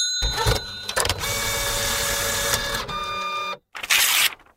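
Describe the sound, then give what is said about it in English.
A robot sound effect used as a sting to open a listener mail segment: mechanical whirring with bright, steady high tones, running in several sections before a short silence and a final burst. “Here comes the robot. Here comes the listener mail.”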